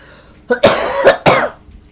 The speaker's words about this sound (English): It's fine that there's a dog coughing. There's a dog in here. There's a dog in here coughing.